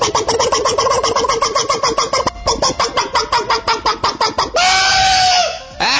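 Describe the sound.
A chicken gives fast, repeated nasal squawks in a steady pulsing run, then a single long, drawn-out call near the end.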